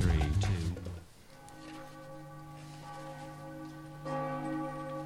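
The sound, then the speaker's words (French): Church bells ring with a loud opening burst, then long resonant humming tones that hang and slowly decay, and a fresh strike swells again near the end. “Suis les cloches.”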